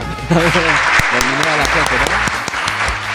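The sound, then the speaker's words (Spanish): A studio audience applauds with thick, continuous clapping, and a voice carries over the top of it throughout. “Bien ahí, aplausos.”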